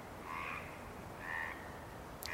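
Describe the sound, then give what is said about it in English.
A frog chorus croaks quietly and intermittently in a marsh at dawn as darkness recedes, with two drawn-out, buzzy calls separated by a pause. “as the darkness recedes in the marsh, the frog chorus becomes quiet and intermittent”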